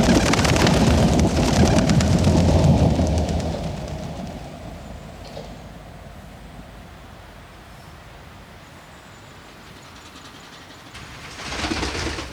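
A train passes by: a loud, broad rumble fills the first few seconds, then fades to a low, steady noise, with a brief swell again near the end.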